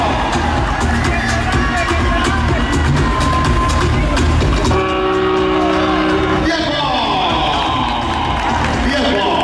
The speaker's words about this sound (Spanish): Vamos, hacemos un poquito de ruido. ¡Venga, animamos, vamos, ruido, ruido!